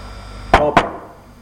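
Two sharp knocks on a castle door, loud and closely spaced, each with a brief ringing decay. No voices are heard.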